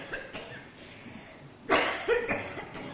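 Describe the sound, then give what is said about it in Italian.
A woman coughs in a short cluster of harsh bursts close together, loud against a faint background that is otherwise quiet. “Era tutto oggi che non tossivo.”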